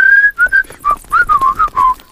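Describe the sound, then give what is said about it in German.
Whistling from people strolling out of a village, a lively tune of many short, clear notes in quick succession that dip and rise slightly in pitch, heard alone without talk. “Pfeifend schlendern die drei aus dem Dorf und die Ratten hinterher.”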